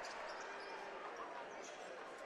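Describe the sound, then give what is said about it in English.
Basketball dribbled on a court as a high school team runs out the final seconds of a game, a steady bouncing beneath loud, continuous crowd noise. “And North Farmington will probably just dribble out the remaining time.”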